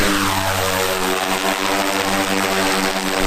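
A propeller aircraft taking off over a forested nature reserve, with a loud, steady engine drone and a constant low hum beneath it throughout. No talk.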